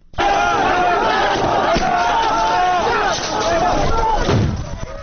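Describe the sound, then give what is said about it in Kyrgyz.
Migrants crowded at a border crossing into Macedonia shout together as police use tear gas and stun grenades: a loud, dense mass of yelling voices that runs on without a break. “Чек араны аш деп кыйкырган мигранттар Македон полицейлерине да таашыргычты.”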